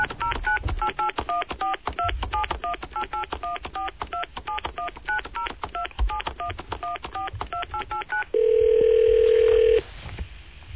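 Telephone keypad tones beep in a long, rapid run of many short dialing blips, then give way to one steady, loud tone held for over a second before cutting off.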